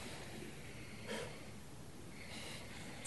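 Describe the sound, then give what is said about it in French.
A deep breath is drawn as a breathy, airy rush with a brief louder swell near the middle, fairly soft overall with no speech over it. “take a deep breath and like I do here”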